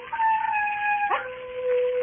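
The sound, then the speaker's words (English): Wild dogs baying and howling on a moor: a long, sustained tonal howl that holds steady, slides abruptly lower partway through, then carries on as a steady lower wail, fairly loud with no talk. “There are wild dogs on the moor. Sometimes they bay and howl.”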